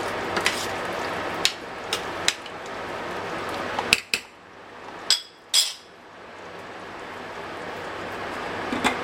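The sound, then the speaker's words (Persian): A cooking pot, two-thirds full of water for boiling rice, is handled and set on the stove, giving several sharp metallic clanks and knocks spaced irregularly over a low, steady background. “خب دوستان من قابلمه رو دو سومش آب کردم و گذاشتم روی حرارت تا جوش بیاد و بعدش برنج رو آبکش کنم.”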